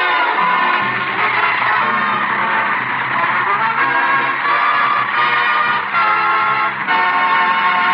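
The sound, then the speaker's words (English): A car drives off with its horn tooting, giving a loud, sustained, reedy honk with slight wavers over a continuous motor rumble. “Hey, wait for us! Wait a minute. Hey. We ain't in. I'll be a polka-dotted possum the varmint drive away without us.”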